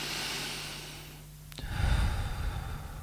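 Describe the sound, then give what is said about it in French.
Deep breathing demonstrated as an example of proper breathing: after a quiet pause, a long, low, rushing breath swells up and carries on to the end, with no talking. “Comme on respire par la bouche au lieu du nez, ou on ne prend jamais de bonne respiration profonde, en fait, en vérité. Normalement, on devrait respirer comme ça.”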